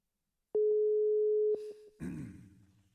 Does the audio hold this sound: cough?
no